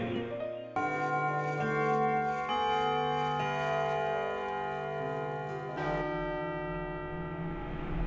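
Bell-like chimes of a clock striking one o'clock at night, a few resonant metallic tones ringing one after another and sustaining, overlapping with long decaying tails.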